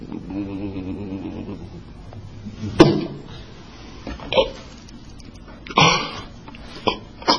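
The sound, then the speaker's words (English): A human voice imitates a lamb bleating as its throat is cut, with a quavering, drawn-out cry followed by several harsh, breathy bursts. “when the angel cut the throat of the lamb, and the blood gushed out, and the lamb went,”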